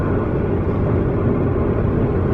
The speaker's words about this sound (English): Right now we're driving by this Great Salt Lake, which is almost impossible to see at nighttime.